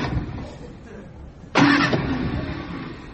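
A car engine is started, an abrupt loud turnover bursting in midway after a low background murmur, then staying loud with a rough, steady rumble to the end.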